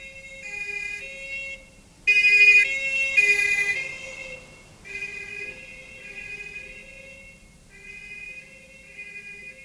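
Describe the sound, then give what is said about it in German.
A police siren near a city at night, wailing between high tones that switch pitch several times, with a louder, noisier stretch early on before it settles to a fainter, steady cycling. “Was war das? Was meinen Sie? Die Sirene. Polizei, nehme ich an.”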